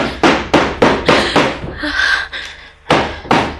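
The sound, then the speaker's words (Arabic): Violent knocking and banging on a door in an Arabic radio drama: heavy, evenly spaced thuds in a fast run, a short pause, then more loud blows. “فوقفت الصبية عائشة مكانها لا تملك حراكا، بينما أسماء ذات النطاقين تفتح للطارقين وتمتلئ رعبا.”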